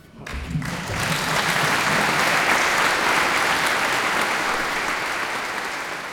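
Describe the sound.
Applause at the Birgit Nilsson scholarship award ceremony, an August evening concert: dense, even clapping from a large audience that rises quickly and holds as a steady, loud patter throughout.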